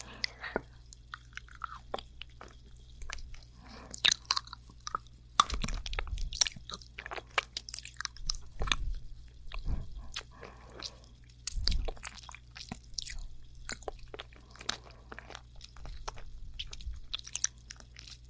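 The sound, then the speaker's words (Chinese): Crunching an orange-flavoured lollipop: many sharp, close bites and crackles in irregular clusters, with softer wet chewing between them. “喜欢吃什么味道的棒棒糖呢？在下面留言啊！很幸运哎，这个是我最喜欢的味道，橘子味道的。”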